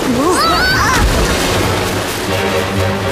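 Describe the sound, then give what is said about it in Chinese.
A small floating island breaks apart in rapids: a loud crash about a third of the way through, then continuous rushing, sloshing water noise to the end. “哦，我的天哪，这座小浮岛开始四分五裂了。”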